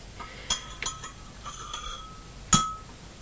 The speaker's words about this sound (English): Don't lift the spoon out, just stir it in the jug.